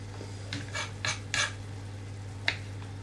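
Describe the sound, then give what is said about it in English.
A knife chopping garlic cloves on a board gives a few brief, quiet scraping taps spread unevenly over a low steady hum, with no voices. “I've got the two cloves of garlic here, about to cut those up. Chopped, of course, is the best.”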